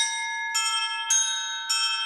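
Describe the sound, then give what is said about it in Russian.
Church bells ringing, four bright strikes about half a second apart, each a sustained metallic chord with many shimmering overtones that overlap as each tone rings on. “Также колокольный звон используется в опере «Князь Игорь», что как бы мы тоже изучаем.”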